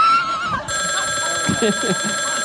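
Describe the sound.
A telephone rings with an incoming call: after a brief lead-in, a steady electronic ring with sustained high tones continues loudly to the end.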